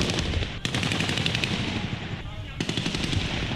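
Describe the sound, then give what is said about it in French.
Bursts of automatic gunfire during a coup in Ouagadougou: dense, rapid, sharp cracks run almost continuously, break off in a short lull, then resume just as fast and loud. “Pas normal, ils n'ont pas le droit de tirer.”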